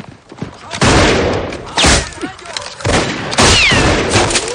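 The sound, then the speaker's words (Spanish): Gunfire in the shootout of the 2007 western 3:10 to Yuma: several heavy, booming shots and bursts land in uneven sequence, loud and punchy, with rumbling tails between them. “Evans repara en que le han disparado en la prótesis. Dan. Abre fuego.”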